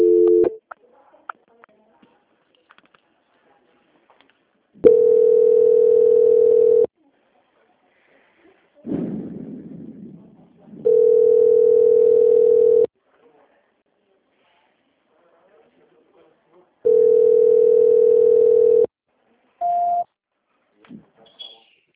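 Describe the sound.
Telephone line tones sound while a call is transferred to an audit department: three steady, mid-pitched tones of about two seconds each, separated by long silent gaps, then a brief higher beep. A short rushing noise falls between the first two tones.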